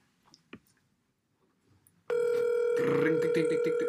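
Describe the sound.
A telephone dial tone sounds while a caller is being connected. After a few faint clicks, a loud, steady, unbroken tone starts and holds to the end.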